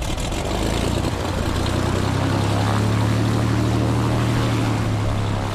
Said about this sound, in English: Last October, I flew over Bears Ears National Monument with the nonprofit EcoFlight, our cramped six-seater propeller.